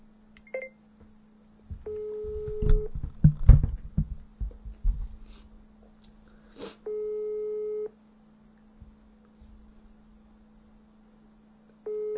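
Ringback tone of an unanswered phone call to a television repairman. Three steady mid-pitched tones about a second long repeat with long silent gaps over a low constant hum, with brief clattering noises early on.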